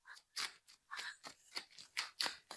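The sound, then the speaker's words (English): Playing cards being handled and shuffled produce many crisp, papery snaps and flicks in an uneven rhythm, soft and close, with no talk. “Time for the card ASMR.”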